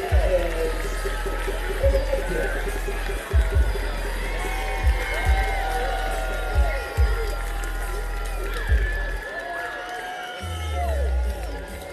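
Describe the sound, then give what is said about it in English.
A hometown baseball crowd roars after a home run, a sustained, steady wall of cheering and crowd noise with a few low thumps scattered through it. “So Adams circles the bases. Hometown crowd gets energized, but still much more to go.”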